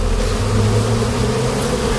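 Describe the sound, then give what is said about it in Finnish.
Honeybees buzzing at beehives in an apiary at the edge of a botanical garden, a dense, continuous droning hum that stays steady and fairly loud throughout, with no talk. “Surinaa ja pörinää täällä Ruissalon kasvitieteellisen puutarhan reunamilla on. Täällä on vuoden mehiläistarha ja Marko Leino.”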